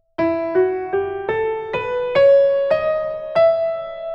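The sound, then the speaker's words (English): An ascending melodic minor scale rises through eight steady notes. Each pitch is held and clearly separated from the next, and the instrument plays alone with no voices, at a moderate, even tempo. “And a melodic minor, which sounds like this.”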